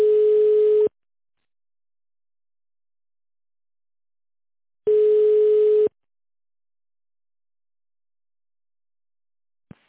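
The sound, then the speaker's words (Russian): A telephone call-forwarding tone sounds as two steady, single-pitched beeps, each about a second long, separated by roughly four seconds of silence, followed by a brief click at the very end. “Переадресация звонка.”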